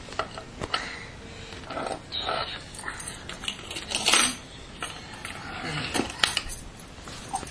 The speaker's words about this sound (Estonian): Ma ei taha, et sa kolistad neid. Siin on potid.